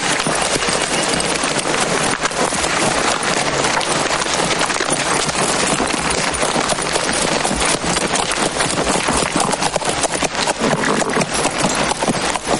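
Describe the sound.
Horses walking through a narrow canyon of tall, whitish rocks, a group of riders at a slow pace; dense, continuous hoof clip-clop over rocky ground runs steadily throughout without pause or voices.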